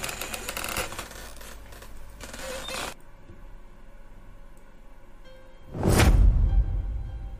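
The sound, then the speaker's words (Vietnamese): A window is suddenly flung open in a horror audio drama: a single loud, swooshing burst that swells abruptly and lingers. It follows a hissing stretch and a quiet pause. “Ông Lý thở dài lắc đầu ngao ngán, thì bất giác cánh cửa lại bật mở ra.”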